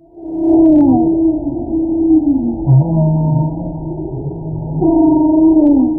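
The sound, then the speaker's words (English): A humpback whale vocalizes off the California coast near Santa Barbara, giving loud, drawn-out tonal moans with rich harmonics and bending pitch, broken by a short, deeper grunt-like call partway through. “That's the sound of a humpback whale off the coast of California.”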